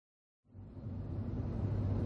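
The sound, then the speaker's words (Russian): A car engine starts and keeps running as the car sets off, a low rumble that comes in after a short silence and grows steadily louder and fuller. “завел машину.”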